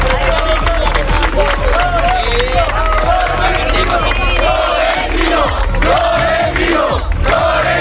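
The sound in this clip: A dense crowd of Real Madrid fans in Ceuta roars and chants continuously to greet the club president, with loud cheering voices and shouts throughout.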